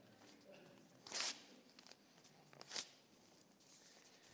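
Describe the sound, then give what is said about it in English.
Something being torn up by hand: two short, sharp bursts of ripping, a second or so apart, over a faint background rustle. “Any takers? Oh dear, what a shame. Gonna have to tear them up.”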